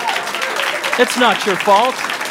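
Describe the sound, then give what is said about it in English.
Audience applause for the third wheels: steady, fairly loud clapping throughout, with voices rising over it near the middle. “Round of applause for the third wheels.”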